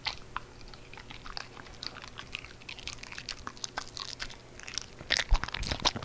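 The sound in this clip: Faint crunching and chewing of a raw carrot, crisp little snaps and clicks scattered over low background noise, growing slightly louder near the end.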